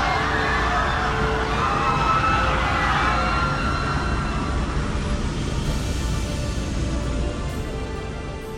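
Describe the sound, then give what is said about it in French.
An alarm siren blares aboard a spaceship, a loud, continuous electronic wail that holds steady for the whole stretch. “Je sais, je vous demande pourquoi l'alerte a été lancée sans mon autorisation!”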